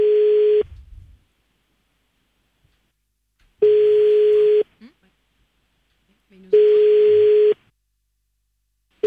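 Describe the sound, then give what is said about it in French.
A telephone line tone sounds during a prank phone call. Steady, mid-pitched beeps about a second long repeat with roughly two-second silences between them, three full beeps and the start of a fourth, with nothing else heard. “Il passe des coups de fil.”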